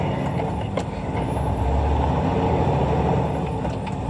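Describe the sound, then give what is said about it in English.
A 10-speed truck engine runs while the gears are shifted, a loud, continuous low rumble and drone with a steady hiss and no distinct breaks or voices. “He brings us through his gear shifting on his 10 speed truck.”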